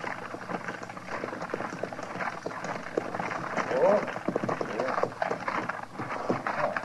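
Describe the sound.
Hoofbeats of a horse-drawn surrey carriage arriving into a plaza, a soft, steady clopping running beneath men talking throughout.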